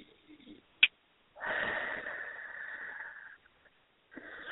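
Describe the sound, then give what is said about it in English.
A deep breath drawn in during a guided energy-healing exercise. It follows a brief sharp click and is a steady, breathy rush lasting about two seconds. A second inhale begins near the end. “One more deep breath in.”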